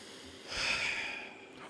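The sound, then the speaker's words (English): A person takes one deep breath: a soft, airy inhale swells and then eases off. It stays quiet and alone, with no talking over it. “Let me just take a deep breath.”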